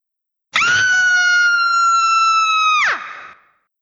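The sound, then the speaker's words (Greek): A person screams alone in one loud, sustained cry that holds a steady, strained pitch for over two seconds, then drops sharply and fades at the end. “Ουρλιάζω.”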